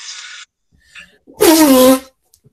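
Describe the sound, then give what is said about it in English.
A person's sneeze: one loud, abrupt burst with a voiced tail that drops in pitch, preceded by a few faint small noises and followed by quiet. “That was a sneeze, too.”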